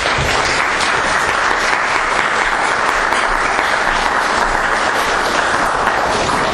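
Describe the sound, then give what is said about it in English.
Applause from a lecture audience welcoming a professor before his talk on left-wing populism in Latin America, a loud, even wash of many hands clapping continuously with no pause. “Please give a warm welcome to Professor Carlos de la Torre.”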